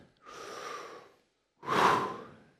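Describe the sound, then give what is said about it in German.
A person takes a deep breath, heard as two long, airy breath sounds separated by a short pause, the second louder and fuller, with no talk. “Atme mal tief ein.”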